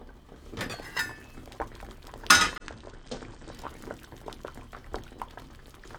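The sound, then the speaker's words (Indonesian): Sweet potatoes boiling in a pot of water make a steady bubbling and popping, broken by a few light metallic clinks and one louder clattering burst. “Ubinya sudah dimasak sekitar 20 menit. Sekarang kita periksa dulu apa sudah cukup lunak.”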